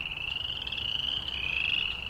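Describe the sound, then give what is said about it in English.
Frogs or toads calling in a full chorus, a continuous high, buzzing trill that holds steady throughout, fairly faint and with no voices. “And then when you have a full chorus of frogs or toads, then that's a three.”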